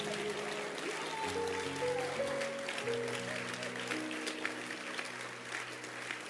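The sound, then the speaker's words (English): Congregation clapping in church as a bishop is welcomed, a steady, dense wash of hand claps holding at moderate level throughout, with sustained musical tones from a keyboard or organ ringing underneath. “Put your hands together. Let's receive our bishop. Keep clapping your hands.”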